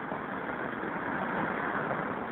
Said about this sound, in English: It's my favorite kind of payphone. Like out in traffic, practically in traffic, right on the curb. Northern Boulevard and 41st Street.